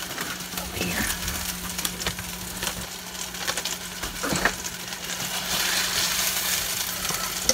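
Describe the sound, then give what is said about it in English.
Butter melts in a pan with a faint, steady sizzle and soft crackle, broken by a few light ticks and scrapes. “Get our butter all melted.”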